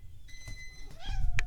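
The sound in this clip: A house cat meows twice, each a drawn-out, moderately loud cry. The second is shorter and settles onto a steady pitch, with a faint low rumble underneath.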